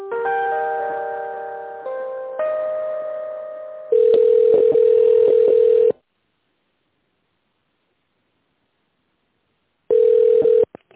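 Telephone tones during a call transfer: a short series of held electronic chime tones, then a steady buzzing ring tone, several seconds of silence, and the ring tone again.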